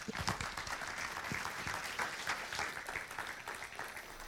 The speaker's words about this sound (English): Put your hands together and welcome Pastor Tony Chester.